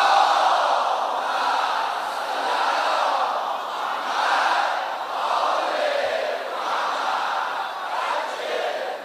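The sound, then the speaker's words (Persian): Loud crowd chanting salawat in unison at a shrine during a birth celebration, a dense roar of many voices rising and falling in repeated rhythmic waves throughout. “تمام عالمو خبر کنید امام رضا به دنیا اومده، بلند صلوات بفرستید.”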